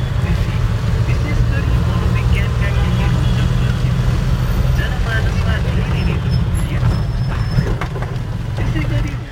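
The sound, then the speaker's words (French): Inside an old, worn-down taxi driving through Kathmandu, a loud, steady low rumble of engine and road noise fills the ride from start to finish, with a few faint knocks over the constant drone. “L'état du véhicule, il nous est arrivé de voir le sol défiler sous nos pieds. Les grincements que vous entendez là derrière,”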